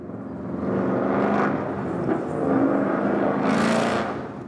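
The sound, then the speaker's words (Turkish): A car with a noisy exhaust revs and accelerates, eases off, then accelerates again. The engine drone swells twice before fading at the end. “Nasıl gaza bastığını duyabiliyorsunuz. Sabit bir hızla da gitmiyor. Hızlanıyor ve yavaşlıyor. Sonra tekrar gaza basıyor. Egzoz sisteminden çıkan o gereksiz gürültünün sebebi de işte bu.”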